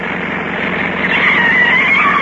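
A car engine revs as the driver presses the gas: a dense, steady roar that holds throughout and swells slightly louder toward the end.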